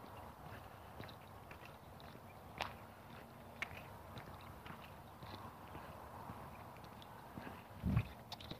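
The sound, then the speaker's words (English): Faint footsteps of someone walking outdoors alongside a park, a steady run of soft, light steps on a hard surface with no talking. “Made the turn, I'm walking alongside the park now.”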